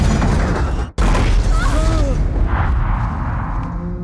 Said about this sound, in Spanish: El vagón choca contra el muro.